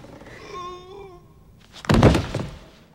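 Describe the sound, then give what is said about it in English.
A hard hit to a man's groin in a film scene lands as one loud, dull thudding impact with a rough, noisy tail that fades within about half a second. “A little nut shot. Like, I thought a couple of balls were going to come out of his mouth, how hard she hits him.”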